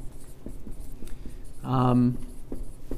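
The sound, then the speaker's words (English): Numbers are written by hand in a few short, scratchy strokes, with a brief voice sounding midway. “So I'm going to write my numbers over here.”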